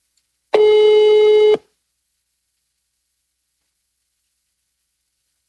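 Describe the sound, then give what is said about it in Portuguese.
A single ringback tone on an outgoing telephone call: one steady, buzzy ring lasting about a second, alone, followed by silence. “os caras pediram pra eu ligar pro João Camargo. Eu vou dizer, viu? Um toque.”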